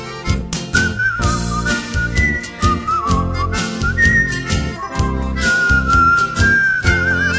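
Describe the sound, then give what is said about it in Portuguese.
A person whistles a melody over full instrumental backing music. The bright, clear whistled line wavers and slides between notes throughout. “Assobiando sempre esta melodia, o passageiro entra no meu bom humor.”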